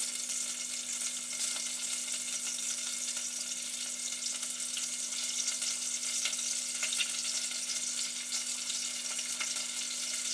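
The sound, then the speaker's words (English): Small pieces of food sizzle steadily in a hot pan, producing a dense, continuous crackling hiss with a faint low hum beneath it. The sound stays even from start to finish with no talk. “Put one piece in, see if it's sizzly enough. Yeah, that's sizzly enough. Here we go, and put the rest in.”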